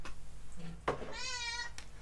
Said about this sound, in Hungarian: Hihetetlen ez a macska. Direkt felraktam a polc tetejére a vizemet, hogy ne ihasson bele a macska